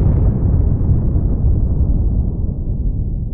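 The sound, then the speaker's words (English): Atomic bomb explosion sound effect for the 1949 Russian detonation: a deep, continuous rumbling roar that stays loud throughout while its upper hiss slowly darkens and fades. “Then in 1949, the Russians detonate an atomic bomb.”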